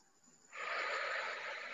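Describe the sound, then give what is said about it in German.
A person takes a deep breath in during a guided relaxation exercise: a brief hush, then a long, steady, airy inhale that holds strongly to the end. “und mit einem Seufzer ausatmen. Und noch ein drittes Mal einatmen”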